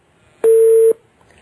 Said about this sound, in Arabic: ان شاء الله انقطع الاتصال